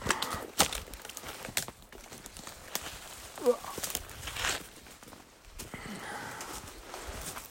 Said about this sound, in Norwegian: Så jeg tenkte vi bare går en runde, bare en skogstur. Mm. Ja. Da går vi inn og ser, da. Hvis vi klarer å komme inn her, det er jo så tett.